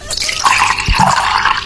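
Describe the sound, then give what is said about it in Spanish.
Water being poured into a small cup, a short, loud and steady splashing gurgle of liquid filling the vessel, without pause. “Llenando una tacita con agua, un vaso con agua, era la respuesta correcta al sonido misterioso del día de hoy.”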